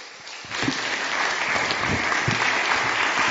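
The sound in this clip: Audience applause welcoming a speaker onto the stage, rising from quiet within the first half second into sustained, dense clapping that holds steady to the end.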